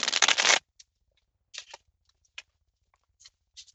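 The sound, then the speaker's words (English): Tarot cards being cut: a brisk, papery riffle lasting about half a second, then several soft, scattered card taps and slides in near silence. “And I cut the cards.”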